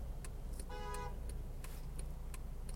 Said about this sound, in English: My goodness, we've got a lot of traffic today.